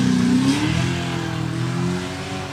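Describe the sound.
Motorbike engines rev on a beach in a loud, continuous droning roar with a strong harmonic tone that eases slightly in pitch early on, then holds steady.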